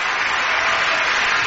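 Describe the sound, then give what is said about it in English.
A large audience applauding: a dense, even wash of many hands clapping at once. It stays loud and steady throughout the short burst, with no single claps standing out. “This is the sound of 10,942 hands showing appreciation.”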